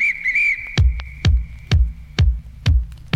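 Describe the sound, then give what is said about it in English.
A whistle blown in a steady high tone that wavers briefly at first and then holds faintly under a funk groove of regular, heavy, evenly spaced drum hits. “Okay, blow my whistle.”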